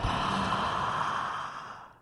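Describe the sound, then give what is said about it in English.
A deep breath drawn in during a guided relaxation exercise, one long, steady, airy inhale that holds for most of its length and then fades out at the end. “Now let's take a deep breath in”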